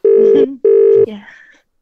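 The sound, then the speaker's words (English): Telephone tones sound as a number is dialed: two long, steady, equal beeps separated by a short gap, then a brief softer warbling sound. “We're dialing.”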